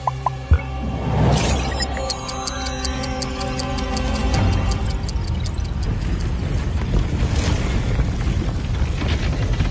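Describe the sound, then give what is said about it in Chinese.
A frozen lake thawing: deep booms and cracking ice with scattered drips, set over sustained tonal layers that continue throughout. “看，冰湖开始解冻了，很快又要热闹起来了。”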